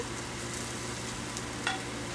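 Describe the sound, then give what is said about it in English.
Butter sizzles on a hot griddle as a buckwheat crepe is started, a faint, steady frying hiss that carries evenly throughout with no talk over it. “And then we start with our buckwheat crepe, which is our signature savory crepe. Let's put butter on there.”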